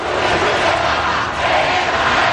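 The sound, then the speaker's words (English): Madrid city-centre streets roar with a huge crowd welcoming Pope Leo XIV, a dense, continuous wash of cheering and shouting with no breaks. “Thousands lining the streets to Spain to welcome Pope Leo XIV. Local authorities in Madrid say more than 500,000 gathered for this event in the city center.”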